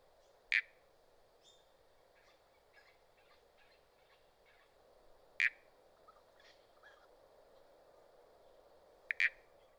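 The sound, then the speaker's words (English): Southern Toadlet frog calling: three short, loud, creaking calls spaced several seconds apart stand out over a faint, steady background chorus. “Southern Toadlet.”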